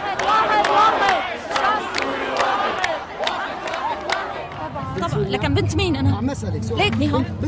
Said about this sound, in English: The Umayyad Square has become a place of exchanging views among different people. Something like the Hyde Park Speaker's Corner that never happened under Assad's power. Men and women are arguing about the country's priorities.